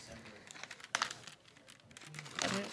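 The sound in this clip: A sour candy package is crinkled and ripped open, with crisp plastic rustling and short tearing bursts, and a final longer crinkle, while people talk around it.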